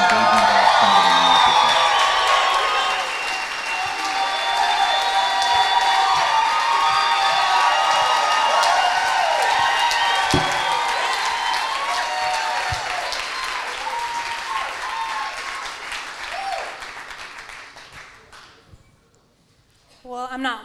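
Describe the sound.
An audience at a Christian gathering stands, cheering and applauding a speaker. Continuous clapping mixes with whoops and shouts, gradually dies away, and a voice comes in right at the end.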